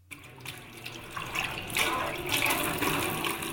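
Running tap water splashes steadily while dishes are washed at a home kitchen sink, a continuous hiss that builds slightly in loudness, with no talking.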